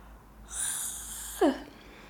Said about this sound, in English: Sorry, I had to yawn. That was like a very weird emergency yawn situation. And yes, when I yawn, I make the sound of like a dog yawning.